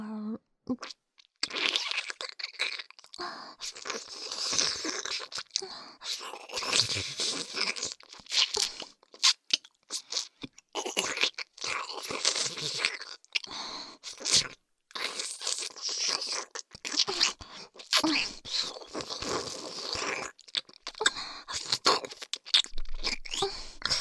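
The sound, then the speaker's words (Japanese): Wet slurping and licking mouth sounds on an ear, a near-continuous stream of smacking, sucking and crackling noises that keeps going throughout with only short pauses, and no talk. “少し舐め方変えるわよ。今度は、耳をすするように。”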